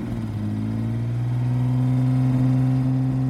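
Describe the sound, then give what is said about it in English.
A Mercedes-Benz CLK 320 engine runs with a steady, low, humming drone that grows slightly louder over a few seconds, with no talk over it. “the hotel receptionist instructed him to park the Mercedes Benz CLK 320 at the hotel, ready for Mr. Teo to take it out for a spin.”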